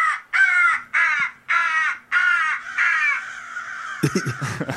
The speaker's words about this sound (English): And you've also got sounds like this one. It's a crow in distress to scare the birds away.